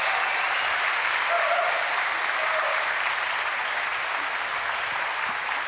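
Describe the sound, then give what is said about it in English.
Concert audience applause for the singers: dense, steady clapping from a large crowd that holds at an even, loud level throughout without pause. “just give them one more round of applause.”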